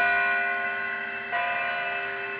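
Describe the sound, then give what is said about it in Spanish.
A bell strikes, and its rich, resonant tone hangs on with steady overtones and only slowly fades. It rings alone, with no voices. “Y sonó una campanada.”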